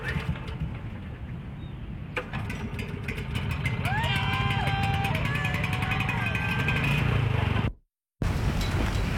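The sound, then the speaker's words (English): A generator engine runs with a loud, steady mechanical drone that settles into a regular chugging after about two seconds. A voice is heard briefly partway through, and the sound cuts out for a moment near the end. “This is us firing up the generator. I hope.”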